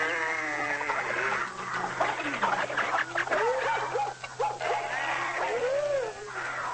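Dog-like barks, whines and yips mix with bird calls in a scene of paired male and female animals gathering at Noah's ark. The calls are varied, overlapping and nearly continuous throughout.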